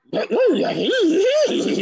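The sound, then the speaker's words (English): A human voice imitates a cartoon dog with a loud, warbling, growly vocalization whose pitch swoops up and down several times in quick succession, heard alone. “Scooby-Doo. There you go. Ah! Okay, let's get a little harder now. I'll do another dog.”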